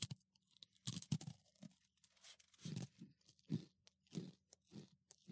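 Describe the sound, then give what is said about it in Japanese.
Crisp, dry crunching of someone biting and chewing a small sesame rice cracker: many sharp, bursty crunches in an uneven rhythm that grows steadier as chewing continues, fairly faint overall, with no talking. “この収録中にね、あのせんべいを食べさせるっていう、ね、バカな試みですね。 小さなごませんべい、はい、どうでしょう。 いただきますね。 食べてみて。”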